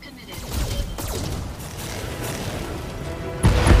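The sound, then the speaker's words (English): Weapons including AC-2 autocannons firing at armored light laser turrets in a video game, producing a rumbling barrage of gunfire that ends in a sudden heavy boom. “How the light laser turrets look like they have a lot of armor. We're gonna fire everything, including the AC-2s. Fire!”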